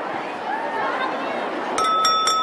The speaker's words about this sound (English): At the head table, McGonagall taps a spoon on her glass.